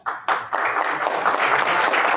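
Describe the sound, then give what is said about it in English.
Audience applause: dense, continuous clapping from many hands, steady and fairly loud throughout with no pauses, after a brief quieter moment at the start. “Maybe hold your applause to the end, unless it's dramatic.”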